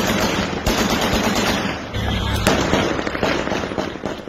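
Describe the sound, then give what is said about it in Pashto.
Celebratory gunfire and fireworks burst across Kabul at night in a dense, loud crackle of rapid shots and pops, with a couple of heavier bangs standing out, continuous throughout. “تیر شپه د کابل په ګڼو سیمو کې د خوخی ډزې شوی او اورشندون کې پټاقي هم هوا ته پورته شوی.”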